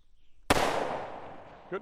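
A rifle fires one loud, sharp crack that rings out in a bright tail and fades over about a second. A brief, fainter sound follows near the end.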